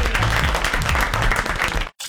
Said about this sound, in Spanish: Bravo, el aplauso muy grande.